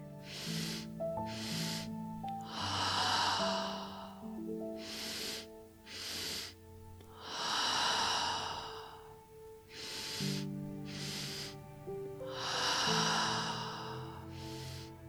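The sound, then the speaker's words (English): A breathing exercise of deep inhales filling the chest, each followed by a full release through an open, relaxed jaw. A few loud, airy breath cycles repeat steadily over soft, sustained musical tones. “The second inhale is going to fill our heart. And then fully release through an open, relaxed jaw. So it sounds like this in the body.”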